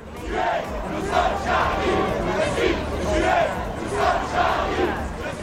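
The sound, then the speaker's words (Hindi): A huge crowd at a Paris rally against the attacks chants 'We are all Charlie' in solidarity with the magazine Charlie Hebdo. Many voices shout the phrase together in a rhythmic, repeating pattern that swells and falls at a steady pace. “Rally में मौजूद लोगों ने दहशतगर्दी का निशाना बनने वाले magazine शार्ली Abdo से जारी यकजहती के लिए "हम सब शार्ली हैं" के नारे लगाए।”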